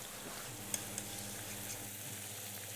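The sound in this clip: Food deep-frying in fat that is not yet fully hot: a steady, soft crackling hiss with two small pops early on.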